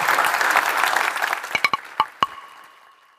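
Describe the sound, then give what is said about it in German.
Audience applause for a birthday: dense clapping that gradually fades, with a few sharp, ringing metallic clinks near the end. “Dann würde ich sagen, weil Hermann hat nämlich wirklich heute Geburtstag, einen ganz festen Applaus.”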